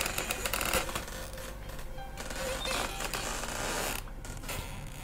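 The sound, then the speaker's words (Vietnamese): Slow creaking of a door opening, a drawn-out, grainy groan lasting several seconds with some rustling texture, and no voices. “Khi cánh cửa chậm rãi mở ra thì thằng Kháng Vẩu”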